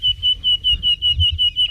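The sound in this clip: Nightingale song: a rapid run of many short, pure whistled notes at a steady high pitch, evenly spaced, over a faint low rumble.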